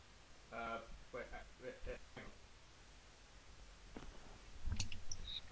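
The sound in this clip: A computer mouse clicks to open a shared photo, with a few soft, sharp clicks under ongoing talking.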